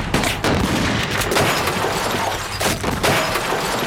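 Gunfire as thieves shoot at an armoured van's driver, who fires back: several sharp, loud cracking bursts over a continuous noisy, crackling clatter, with no voices.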